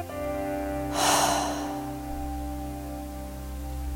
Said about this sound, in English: With a puffing breath through your mouth,